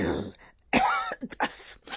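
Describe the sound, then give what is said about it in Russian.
A senator has a coughing fit: a few harsh, rough coughs mixed with throat clearing in quick, uneven bursts. It is fairly loud, with no speech alongside. “Сенатор опять схватил припадок кашля, после чего он обыкновенно делался еще злее.”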